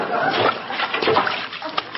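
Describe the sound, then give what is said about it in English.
Diced potatoes splash into a pot of water while cooking, a few sloshing, watery bursts with a sharper splash near the end. “Well, the recipe says dice 7 to 11 potatoes. Now stand back. I don't want to splash anybody.”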